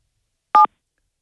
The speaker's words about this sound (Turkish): Evet, siz basın 7, direkt açacaklar. Bir saniye, basıyorum hemen.